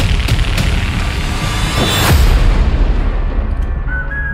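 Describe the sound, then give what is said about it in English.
Explosions from a movie trailer, with old barns blowing up, form a dense, continuous roar with a heavy boom near the middle and rumbling throughout, then thin out toward the end. “So many things are exploding on camera right now, and they literally don't make sense. It's just random old barns are exploding.”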